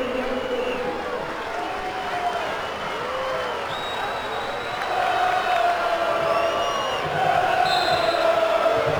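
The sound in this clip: English football fans chant for Jude Bellingham after his goal in a Nations League match, a loud massed crowd singing in long sustained tones that swell toward the end, with a commentator talking over it.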